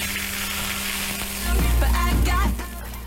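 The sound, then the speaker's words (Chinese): Hot rapeseed oil heated with red Sichuan peppercorns is poured over a dish, and a steady sizzle surges into a loud, crackling burst for about a second before easing back to a lower hiss. “然后我们重新烧热100克菜籽油，油温8成热之后加入适量的红花椒，然后泼在上面即可。”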